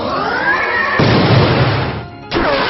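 A spirit force attack hitting in a video game battle: a tonal sweep gives way to a loud, noisy crashing impact, then a brief lull and a second burst.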